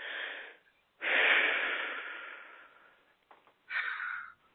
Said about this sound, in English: And now take a deep breath.